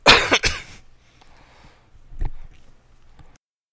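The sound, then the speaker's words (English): A person coughing: two harsh, loud coughs in quick succession, then quieter throat noises and one more fainter cough. “Sorry, I keep coughing, so I'm trying to get to the mute button before I cough in your ears”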